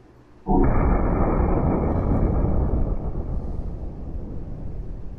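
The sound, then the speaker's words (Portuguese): A bomb goes off in a prank, a sudden loud blast that bursts into a dense roaring rumble and carries on for several seconds, easing only slightly toward the end. “botou a bomba, fogo na bomba, né? Brincadeira de leve, vamos ver. Vai explodir a bomba.”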